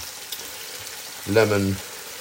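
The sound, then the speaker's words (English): Faint sizzling of a thin cut of pork frying in a pan as it is turned, a soft, steady hiss with a brief hummed vocal sound partway through. “It's practically ready because it's such a good cut of meat. It's very thin. So you just keep turning it. And I would cook it quite well. You don't want to undercook it. You don't want pork to be pink, in my view.”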